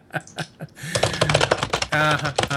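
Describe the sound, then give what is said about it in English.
Rapid clicking keystrokes on computer keyboards as people type into a chat window: a dense, busy run of quick taps that begins after a short bit of speech and continues to the end. “everybody's on mute because they're all typing in the chat screen, which is just hilarious to me. That's because you yell at us when we type without muting, right?”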